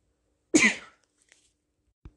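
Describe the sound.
A single short, rough throat-clearing burst from a speaker during a sermon recording, followed by near silence with a couple of tiny clicks.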